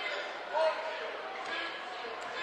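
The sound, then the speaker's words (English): A basketball being dribbled during a close basketball game, a few faint bounces under a steady crowd murmur. “he's going to dribble it out of bounds”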